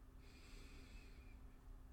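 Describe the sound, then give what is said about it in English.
A deep breath inhaled during a breathing exercise, a steady, faint, airy draw of air lasting about two seconds, heard alone without talk. “Why don't we practice some deep breaths? Inhale”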